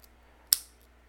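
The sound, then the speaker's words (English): A single sharp snip as the end of a cigar is cut: one crisp, bright click with a short fading tail, heard alone against a quiet background. “this is a different a different style of the cigar. Let me cut it.”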